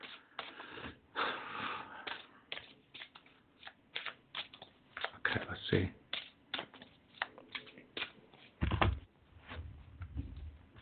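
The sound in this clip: Oracle cards being shuffled and handled: many rapid, papery clicks and flutters in uneven bursts, with a heavier, bass-rich thump near the end.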